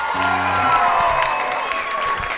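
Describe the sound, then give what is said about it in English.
Comedy show audience cheering and applauding, a dense roar of clapping with voices shouting in the crowd. “Come on, everybody, make some noise for Jason!”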